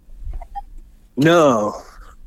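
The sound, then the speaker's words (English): A single loud, harsh goose honk lasts about half a second with a wavering pitch. A few faint, quieter sounds come before it. “These are geese.”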